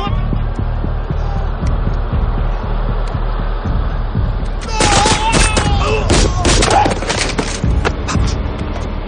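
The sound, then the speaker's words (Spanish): Distant gunfire in the war film Tears of the Sun (2003), a low rumbling backdrop giving way midway to many sharp, crackling shots in quick irregular bursts that grow louder and denser toward the end. “Desde lejos, tras el asesinato del indígena, Red dispara acabando con la vida de los torturadores.”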